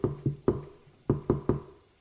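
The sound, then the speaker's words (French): Knocking on a door: six sharp raps in two groups of three, separated by a short pause, crisp and fairly loud with no voices. “l'on frappe à la porte”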